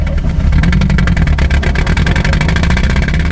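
A green van's engine drones loudly and steadily while driving, a dense low rumble with a fast, even pulsing texture throughout.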